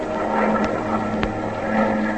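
Steady engine drone of Japanese bomber aircraft flying over the ocean, a dense continuous roar with a low humming tone underneath, holding at an even loudness throughout.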